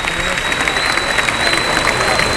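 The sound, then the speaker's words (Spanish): Bullfight crowd applauding matador Maripaz Vega after she kills the bull. Dense, even clapping fills the whole stretch at a steady loud level with no clear gaps. “Y hay palmas para Maripaz Vega, que ha tenido en este toro un enemigo, sin duda.”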